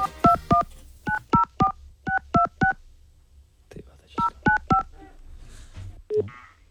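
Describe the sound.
A telephone number is dialed to Slovakia: a series of quick, clear touch-tone beeps in small rapid groups, each group separated by short pauses.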